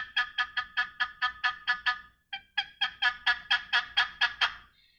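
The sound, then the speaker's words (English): Turkey box call played with bad rhythm: a long run of raspy, high yelps struck in fast, evenly spaced strokes, a brief break with one short stroke, then another quick run of a dozen or so yelps. “I always say, if you take a turkey call, take a box call. I hope this don't blow it out. You take a box call.”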